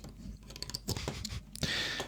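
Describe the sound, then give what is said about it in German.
Sharp hiss of a lemonade bottle being opened, following a stretch of soft handling clatter and rustling; the fizzy release rises suddenly and holds steady for about half a second. “Da müssen mal Flaschen geöffnet und getrunken werden.”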